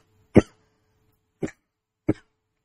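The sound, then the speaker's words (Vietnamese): Three short, sharp coughs from a person choking on saliva, evenly spaced about a second apart, the first one loudest and the next two slightly softer, with silence between them. “Nước miếng sặc. Mắc công thấy ho khi vừa dính Covid nữa.”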